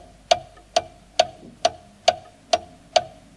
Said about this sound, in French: Tic-tac est le son qui nous a dit que le temps passe sans s'arrêter.